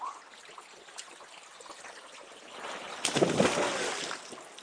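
Water descending into a deep turquoise pool at the foot of a fall. A soft, steady rush and trickle swells into a louder, splashier surge over the final second and a half.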